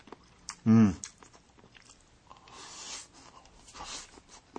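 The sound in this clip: Chewing food while tasting a dish, with soft, irregular mouth and crunching noises and a brief hummed vocal sound near the start.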